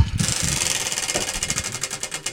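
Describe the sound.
A prize wheel being spun gives a rapid, continuous rattle of ticking clicks that stays fairly loud throughout the short burst.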